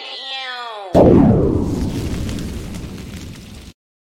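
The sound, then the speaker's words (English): A bomb explosion sound effect: a short, wavering tone gives way to a sudden loud boom, followed by a long, rumbling decay that cuts off abruptly. “I'm sorry, I had to give you a bomb for that.”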